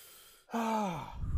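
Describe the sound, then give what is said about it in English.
A deep breath, with a soft, faint inhale followed by a voiced exhale that falls in pitch like a sigh. “Take a deep breath.”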